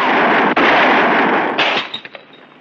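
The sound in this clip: A gunshot in a Western film scene: a sharp crack cuts through a loud, dense wash of noise that tapers away over the following second, leaving a few small clicks.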